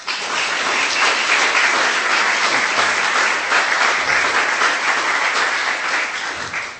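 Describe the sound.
Warm audience applause greets a speaker at a West End Festival Philosophy Cafe talk: dense, even clapping holds steady at full strength for several seconds before easing slightly at the very end.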